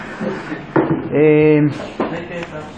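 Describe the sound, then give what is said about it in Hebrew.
A door being shut during a lecture, heard as a few short wooden knocks and clunks among people talking. “אתה יכול רק לסגור את הדלת שיהיה לנו טיפה ליותר שקט.”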